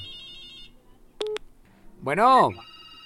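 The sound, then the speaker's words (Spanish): Telephone tones as a call is placed: a steady tone at the start, then a short double beep, followed by a brief voice answering. “Vamos a ver otra llamada telefónica.”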